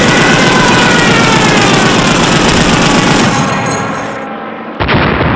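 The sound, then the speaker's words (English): Rapid gunfire in a video game, a loud, continuous rattling barrage of shots that thins out briefly before one more sharp burst at the end. “Shall I shoot him? Shoot him with your finest shooteries.”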